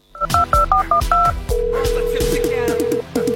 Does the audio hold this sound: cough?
no